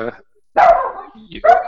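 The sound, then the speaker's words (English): A dog barks twice, loud, full-voiced woofs about a second apart with a brief rough tail after the first. “doggo. Doggo.”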